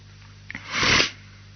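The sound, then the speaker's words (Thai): A single sneeze: a brief catch of breath, then a loud, sharp burst that cuts off quickly. “ที่จามอยู่นี้ก็ไม่เที่ยงนะท่านจริงๆผมเองก็ไม่อยากจะจามนะแต่ห้ามเขาไม่ได”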